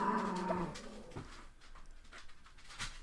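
A dog chews on a bone, making soft, irregular gnawing and clicking sounds that stay fairly faint throughout.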